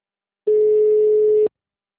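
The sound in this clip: A telephone line tone heard while placing a call: a single clean, steady, mid-pitched beep about a second long, loud and alone against silence.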